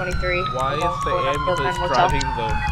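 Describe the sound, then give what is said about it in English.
An ambulance siren in a police video game, its wail sweeping up and down in pitch over and over at a steady, fairly loud level. “What the heck is an ambulance driving the wrong way?”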